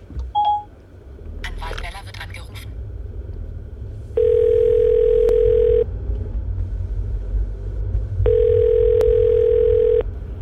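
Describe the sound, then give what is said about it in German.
A phone call placed by voice command on a phone: a short beep and a brief burst of noise, then two long, steady ringing tones a few seconds apart, with low rumble underneath. “Hey Siri, ruf Anwalt Weller an.”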